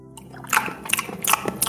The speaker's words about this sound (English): Why is this wet sounding? Nothing you're eating is wet. There is... It's sprinkled with oil. I used motor oil as a means to fry the nuts and bolts.